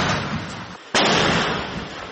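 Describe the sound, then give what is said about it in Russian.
Mortar fire during an assault on a road toward Bakhmut: heavy, continuous blast noise dips briefly, then one sharp, loud report cracks in, and the roar carries on. “И вот конкретно в этот момент идет очередной штурм. Выстрел за выстрелом. Минометы не успевают остывать.”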